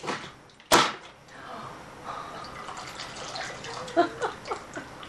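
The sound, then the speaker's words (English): A steam-filled can is crushed by air pressure, giving one sharp, loud crack near the start, followed by faint hissing and watery trickling with a few small ticks and pops. “All the air was pulled out, turned back into water inside this can, so it was a low pressure environment. All of the atmosphere air is pushing down this can and it ends up crushing the can.”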